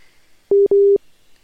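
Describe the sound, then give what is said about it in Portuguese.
A telephone busy tone after a live call dropped: two steady mid-pitched beeps in quick succession, the second one longer, loud and alone against near silence. “Eita, a ligação caiu. Eita. Caiu, gente, o link ao vivo.”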